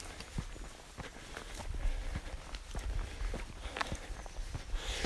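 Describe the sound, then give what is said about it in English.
Footsteps of walkers passing on an uphill path under a canopy of trees. Many soft, irregular steps come faintly through the background. “Just passing another walker. As I walk uphill under a complete canopy”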